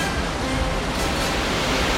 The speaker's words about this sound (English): You're headed for a waterfall! A waterfall throws mist just ahead.